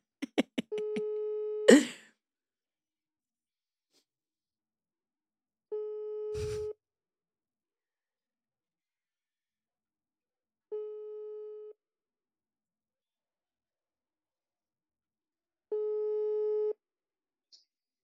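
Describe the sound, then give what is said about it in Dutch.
Ringback tone of an outgoing Instagram voice call: four steady, mid-pitched electronic tones, each about a second long and spaced roughly five seconds apart, with a few clicks at the start and silence between tones. “Dus ik ga hem nu via Instagram bellen.”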